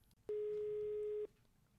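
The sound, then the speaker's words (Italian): A ringback tone on an outgoing telephone call: a single steady, mid-pitched tone lasting about a second, with quiet background before and after. “ho trovato il numero di Truce Baldazzi, adesso lo chiamiamo. Ok, vai, chiama.”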